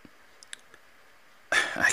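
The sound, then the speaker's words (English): A few faint, sharp computer mouse clicks sound alone in near silence, followed by a voice starting to speak. “So we'll click out of that.”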